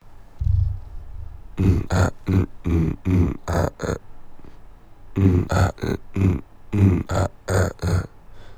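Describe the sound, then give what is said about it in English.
Dry vocal tracks in a lazy, subtle beatbox style: voices imitate percussion with short breathy bursts and grunts, in two loose runs of hits separated by a brief pause, only hinting at a steady tempo. “almost sort of like this lazy, subtle beatbox type thing, sort of. Kind of to a tempo rhythm, but not really, just sort of hinting at it more so.”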